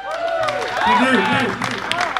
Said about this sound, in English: Round of applause, please.